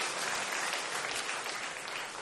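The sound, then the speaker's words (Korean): A church audience applauds its flower-garden team with steady, even clapping that holds at the same level from start to finish. “우리 이분들을 위해서 박수로 한번 경기하겠습니다.”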